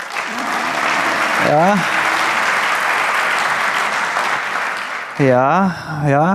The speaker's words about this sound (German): an der Stelle hatte ich keinen Applaus erwartet